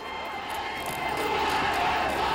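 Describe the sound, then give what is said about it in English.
Stadium crowd cheering at a game, a steady, dense roar of many voices that holds at an even loudness throughout without clear breaks. “Inside, the stadium crowd are cheering, raising their arms in a salute.”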